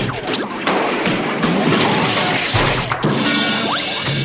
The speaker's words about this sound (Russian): Шар лопнул.